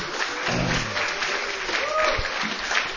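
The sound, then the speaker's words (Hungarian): Audience applause at a bilingual church-style gathering, a steady, moderately loud patter of many hands clapping for about three seconds. “Adjunk egy nagy tapsot neki is.”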